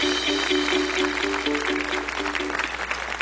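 A church audience claps steadily to welcome a pastor, a dense, continuous wash of many hands that eases slightly toward the end.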